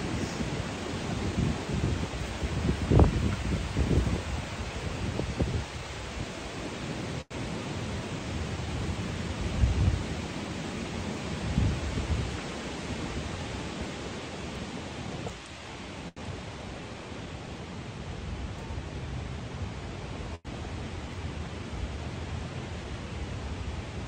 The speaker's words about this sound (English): Let's just enjoy this wind and sun.